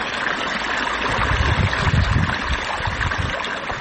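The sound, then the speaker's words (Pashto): Irrigation water flowing onto freshly sown poppy fields on former desert farmland in Marja district, Helmand: a steady, loud rushing and gurgling wash that continues throughout, with no talk. “د کوکنارو تازه کرل سو کښتونه ته اوبه ورکوي”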